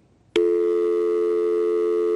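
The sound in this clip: Telephone tone after a dropped call: a steady, loud electronic tone begins abruptly and holds unbroken at one pitch to the end.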